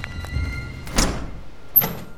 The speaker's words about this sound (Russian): Я распахнул дверь, ведущую внутрь здания управления погрузкой, и остановился.